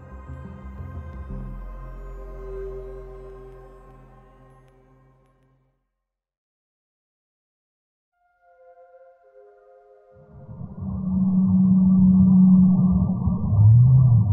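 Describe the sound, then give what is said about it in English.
A Rice's whale call from the Gulf: a low, droning tonal moan with layered harmonics that fades away over several seconds, then silence, then a fainter tonal note followed by a loud, dense, rumbling wash. “That's the sound of a Rice's whale call.”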